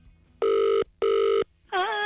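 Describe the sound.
A telephone rings on an outgoing call with two long, loud electronic rings separated by a short gap. A wavering voice then begins.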